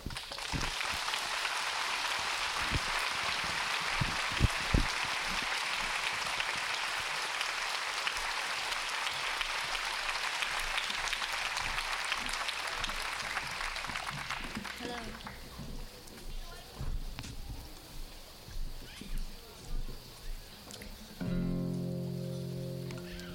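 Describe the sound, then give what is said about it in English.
An audience applauds to welcome a father and daughter performing his songs at a Vietnamese music event. Dense clapping is sustained for about fifteen seconds, then thins into scattered claps and quieter sounds, with tones entering near the end. “Let's have a rousing, warm welcome for Phan Suy and Hai Tien.”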